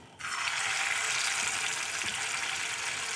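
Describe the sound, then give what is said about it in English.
Sizzling of lentil patties frying in a hot pan heated to about 350 degrees: a dense, loud, steady hiss that starts abruptly and holds evenly throughout, with no talk. “And you fry these just like you fry anything else. Let them get brown on one side, flip them over, let them get brown on the other side.”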